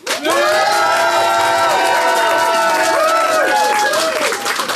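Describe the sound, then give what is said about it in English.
A live audience votes by applauding and cheering at a show, with whoops and shouting voices riding over a dense, steady wash of clapping that stays loud throughout. “So if you think Jenny and Ben, and therefore Anna, is in the right, I would like you to applaud now.”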